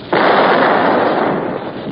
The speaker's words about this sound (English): Hey, Sarge, it fell short. Must have been a defective shell. Reload. Right. All set. Ready? Fire!